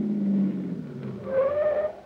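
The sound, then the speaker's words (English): A taxi pulls up and stops beside a small white cottage. A low engine hum eases off, then a brief rising squeal of tires or brakes sounds as it halts. “Driver, pull up that little white cottage there behind that car that just rolled away.”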